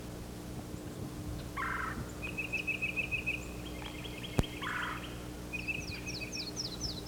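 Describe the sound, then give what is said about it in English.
A yellow-throated warbler singing at the edge of a moving flock: thin, high, rapidly repeated notes in two phrases, the last ending in a falling series, faint over a steady low hum, with two lower gobbling bursts. “There's a yellow-throated warbler singing.”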